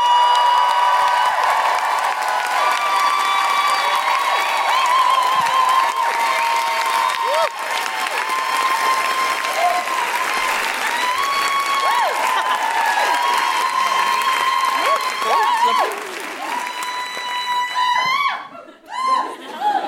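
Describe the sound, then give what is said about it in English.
Applause and high Geordie-style woohoos from an audience welcoming a guest on stage at a Newcastle comedy show, a dense sustained roar of clapping and whooping that thins out near the end. “Please put your hands together and make extraordinary Geordie woohooing noises for Sammy Dobson!”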